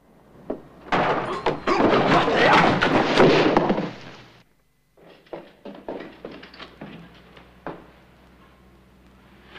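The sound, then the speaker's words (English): A trapdoor springs open and a body drops onto a stone floor below: after a brief knock, a loud, rumbling crash lasts a few seconds. Quieter scattered thumps and knocks follow once it stops. “Suddenly, Joe springs the trapdoor wide open. Lamar steps into the void and falls to the stone floor below.”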